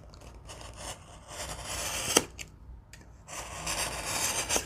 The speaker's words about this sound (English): All right, let's do a little side trim.